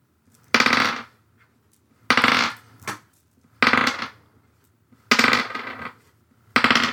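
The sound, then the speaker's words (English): Five dice rolled for a control check in a tabletop game, heard as five sharp bursts of bright clacking at a steady rhythm, with one smaller rattle after the second burst. “And I'm rolling four plus for control. Plus one for the agent that's been deployed. Mm-hmm. So five dice.”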